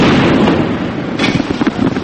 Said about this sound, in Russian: От танковых залпов вылетают стекла в домах.